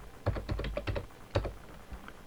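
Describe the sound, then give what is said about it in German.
Quiet keystrokes on a computer keyboard as an admin password is typed on a Fedora Core Linux system. A short, uneven burst of soft clicks plays with no voices. “ich führe den Befehl pyroot aus, gebe das Admin-Passwort ein.”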